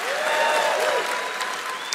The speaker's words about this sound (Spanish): Los que temen al Señor, un aplauso a Él. Acompáñalo con un grito de júbilo.